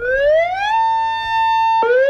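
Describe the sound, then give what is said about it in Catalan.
Emergency warning siren of the Mequinensa river dam in the Baix Cinca, loud and tonal. Its pitch climbs, holds a long steady wail, then drops sharply and begins to rise again. “Aquest és el so de les sirenes de la presa de Mequinensa, el Baix Cinca”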